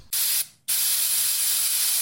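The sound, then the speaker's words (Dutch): Perfume sprayed from a spray bottle: a short hissing burst, a brief gap, then a second, much longer steady hiss that runs to the end. Airy and bright, with no voices. “dan moet je echt ophouden met die parfum. Dat stinkt echt. Ja, je, je moet niet blijven spuiten.”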